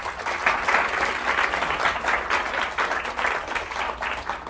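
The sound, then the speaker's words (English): An audience claps to welcome two guests on stage at the Edinburgh International Book Festival. The applause is steady and moderately loud, a dense patter of hands that runs evenly for the whole stretch without any voices over it. “So let's please put our hands together and welcome Charlie and Robbie.”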